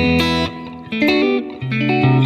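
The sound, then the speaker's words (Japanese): A slightly distorted electric guitar, plugged into a computer with reverb added, plays a few sustained chords and notes whose tones ring on and overlap. “エレキギターちょっと歪んでますけど、これエレキギターの音ですけど、これに、リバーブを、かけるとちょっとこう残響が残るんですね。”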